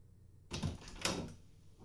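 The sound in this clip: A door slides open to air out a windowless room, giving two rough scraping rushes close together that rise and fade within about a second.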